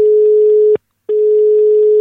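A telephone line tone on a radio phone-in call: a loud, steady electronic hum that cuts out once for a short silence, then resumes unchanged.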